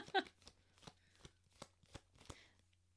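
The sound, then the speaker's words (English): Tarot cards falling and slapping together during shuffling, heard as a quiet series of soft, papery flicks and taps at irregular intervals. “All my cards are falling now.”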